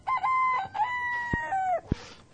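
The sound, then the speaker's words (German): A rooster crowing as day breaks: one long, wavering cock-a-doodle-doo with a strained, nasal tone, fairly faint and heard alone without talk. “Der Hahn hat gekräht.”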